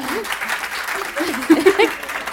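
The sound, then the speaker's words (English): An audience at a book award reading claps and cheers in a steady wash of applause, with a few voices whooping and calling out above it near the middle. “I'm really enjoying the like holding up of the book, the like woofing. If anyone feels like that, like, you know, if there's a particularly exciting moment, you can just hold your book up and cheer.”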